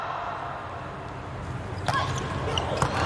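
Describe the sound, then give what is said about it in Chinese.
During a women's volleyball match involving China's team, a server bounces the ball before serving. Two firm thuds land about a second apart over a steady background hum. “杨舒敏上来发球”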